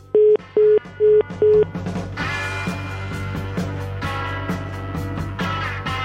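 A telephone line plays four loud, evenly spaced, mid-pitched beeps after the called person hangs up on a phone survey. Denser, rhythmic sound then takes over.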